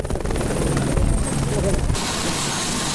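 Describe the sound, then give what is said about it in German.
A helicopter flying supplies toward Namche Bazaar in Nepal after an earthquake: a loud, steady rotor thrum with rapid chopping pulses, its tone shifting after about two seconds. “Sie erreichen einen Hubschrauber, der Versorgungsgüter nach Namche Bazaar bringt und sie auf der leeren Fläche hinter dem Pilotensitz talabwärts in einen kleinen Ort fliegt”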